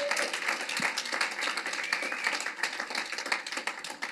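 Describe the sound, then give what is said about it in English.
Audience applause welcomes a guest speaker coming forward, dense and steady clapping from many hands that keeps an even loudness throughout without a clear start or finish. “Would you please help me welcome Helen from Grant Me Hope? Give it up to her as she comes forward.”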